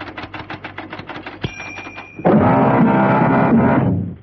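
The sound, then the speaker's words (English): An appointment card goes into a clocking-in machine: a run of light ticking clicks, a sharp thunk with a brief thin tone, then a loud, steady mechanical whirr that holds for about two seconds and fades. “Steed walked across to what appeared to be a clocking-in device. A small notice read, "Insert your appointment card here." Well, with pleasure.”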